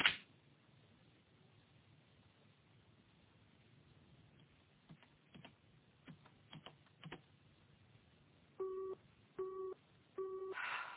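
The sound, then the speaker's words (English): A telephone busy signal on an engaged line: three evenly spaced, steady mid-pitched beeps near the end, the last one cut short, after low hiss and a few faint clicks. “What's the problem? The line's engaged.”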